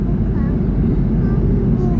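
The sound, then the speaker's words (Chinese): Inside an airplane cabin on a flight from Beijing to Sanya, a loud, steady low engine drone fills the space, with faint voices heard over it. “耳边这个声音是从北京飞往三亚的航班上面”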